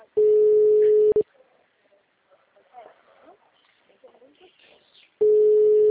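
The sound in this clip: Telephone ringback tone on an unanswered call: a steady mid-pitched tone lasts about one second, then a gap of roughly four seconds with faint low noises, then the same tone returns.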